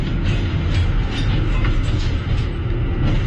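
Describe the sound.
A train rumbles steadily while riding inside it, a continuous loud low rolling noise with faint rhythmic rattling and no voices.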